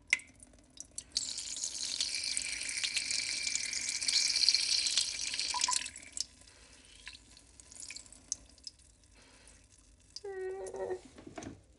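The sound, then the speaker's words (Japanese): A person urinating into a toilet: a steady hissing splash of liquid that runs for several seconds and then stops, followed by a few faint scattered noises. “ちょっとトイレに来ておしっこします。ああ、出る出る。”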